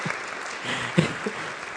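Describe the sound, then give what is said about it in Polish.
Audience applause at a faith-sharing gathering: steady, dense clapping with a few brief louder claps, fairly quiet and without talk. “Dajmy mu oklaski, bo to dla niego było trudne.”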